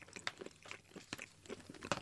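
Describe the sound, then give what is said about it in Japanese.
Faint, moist crunching from chewing hard dried kelp, with many irregular bites and grinding chews in an uneven rhythm and no talk over them. “でも噛めば噛むほどってやつね、うん、昆布だから。”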